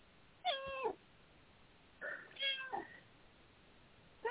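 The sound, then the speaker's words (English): A cat meows a few times, each meow high and drawn out with a wavering pitch, separated by short pauses and heard alone without talk. “there's some affirmation from the cat. Yeah. Just got up in my lap.”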